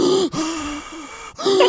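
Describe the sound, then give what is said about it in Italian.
A man's heavy panting, linked to asthma: three loud, rasping, partly voiced breaths in quick succession, with a wheezing, hollow tone. “Di quell'imbecille lì che ansima come fosse Darth Vader.”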